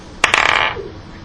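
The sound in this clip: Dice rolled onto a tabletop during a fantasy role-playing game: two sharp clicks in quick succession, then a brief rattling clatter that settles within half a second, with no talk over it.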